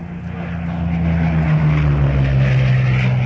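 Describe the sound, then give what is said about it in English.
Bomber aircraft engines drone as the planes wheel right toward an attack on destroyers: a loud, continuous low hum with a steady pitch under a broad rushing roar, with no voices. “The commander of the bombers wheels to the right.”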